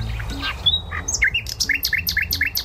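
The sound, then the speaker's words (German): A nightingale sings a bright, high phrase of varied whistles and chirps that ends in a rapid run of repeated short notes, clear and unaccompanied by voices. “Ist das ein Spatz? Nein, das ist eine Nachtigall.”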